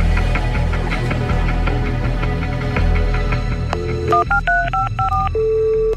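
Telephone number dialed on a touch-tone phone: a quick run of clean paired beeps of differing pitch near the end, preceded by a steady humming background with faint rhythmic ticking.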